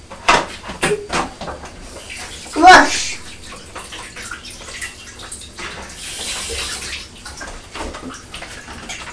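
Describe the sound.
Tap water runs over a strawberry being washed, a soft rushing splash with a few sharp knocks and clatters near the start and a steadier wash of water toward the end.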